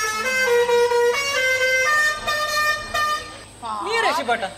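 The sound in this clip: A vehicle horn honks a loud sequence of steady multi-toned notes that shift in pitch, followed near the end by warbling, swooping tones.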